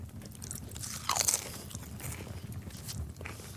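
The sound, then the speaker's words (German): Crunching, biting and chewing as someone greedily wolfs down partly spoiled food provisions. The sound is low and continuous, with a louder burst of crunches near the middle. No voices. “Er schlang das teils schlecht gewordene Essen einfach in sich rein.”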